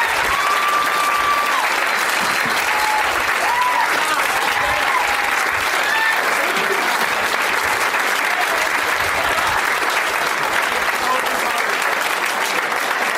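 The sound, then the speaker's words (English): Applause from a live audience at a comedy show: a steady, dense patter of many hands clapping that stays loud and even for the whole stretch. “Ladies and gentlemen, thank you so much. One more round of applause for all of these guys.”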